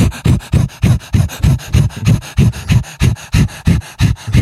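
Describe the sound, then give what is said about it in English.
Quick, short panting breaths from a person demonstrating a breathing technique, a fast, even run of many loud huffs repeating steadily with no talk. “with that position, it is quick and short breaths to go with the motion. It's sort of like...”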